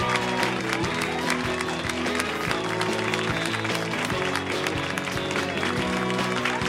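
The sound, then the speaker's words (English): An audience at a live comedy show applauds: thick, continuous clapping from a crowd, loud and sustained at an even level throughout. “So please put your hands together in a repeated clapping motion for Mr. Pete Holmes from You Made It Weird.”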